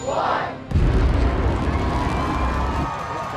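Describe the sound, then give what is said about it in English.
Deep, rumbling roar of SpaceX's first reusable rocket launching on March 30, 2017, bursting in abruptly after a short stretch of crowd noise and holding loud and steady to the end. “March 30th, 2017, SpaceX successfully launched and landed its first reusable rocket. 5, 4, 3, 2, 1.”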